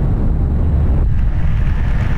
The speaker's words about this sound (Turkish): Boğazda sörf yaparken fırtınaya yakalandılar. O anları eğlenceye çevirdiler.